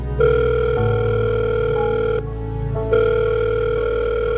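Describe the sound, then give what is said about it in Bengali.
Telephone ringing with an incoming call from an unknown number during work at a radio station: a loud, steady electronic ring tone of sustained notes that stops briefly, then resumes. “কাজের ফাঁকে একটা অচেনা নম্বর থেকে phone এলো।”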